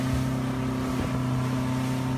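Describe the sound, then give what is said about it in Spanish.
A Zodiac inflatable motorboat arrives across the water at night. Its engine gives a steady, low-pitched droning hum at an even level throughout, with no voices. “La Zodiac llega hasta la ubicación.”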